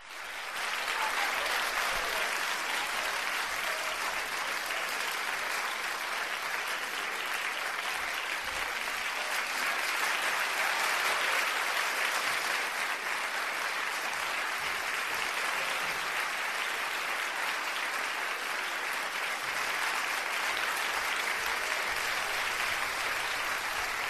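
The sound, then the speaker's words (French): Standing ovation from an audience at an after-sales service awards ceremony: dense, sustained applause that holds steady and loud for the whole stretch, with no talk over it. “pour le travail euh, fourni par euh, toute l'équipe du SAV de la 1 je vous demande, s'il vous plaît, une standing ovation digne de ce nom.”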